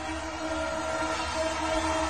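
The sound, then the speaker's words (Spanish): A Sarmiento line train passes through Ramos as a steady, dense rumble of wheels and carriages that stays loud and even throughout, with no pause. “escuchemos cómo el Tren Sarmiento pasaba por la tanga de Ramos.”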